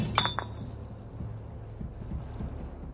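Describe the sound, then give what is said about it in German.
Beer bottle being smashed: a few sharp, bright glassy clinks come close together at the start, then give way to a low, steady rumbling noise. “Ich zerschlage die Flasche. Das Bier fließt auf den Boden.”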